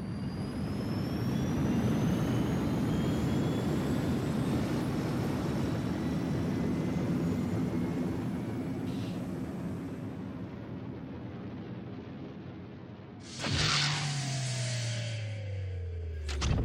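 A spaceship's flight rendered as a loud, steady engine roar with a deep rumble and faint high whines. It breaks off abruptly near the end, followed by a burst of noise and descending tonal sweeps.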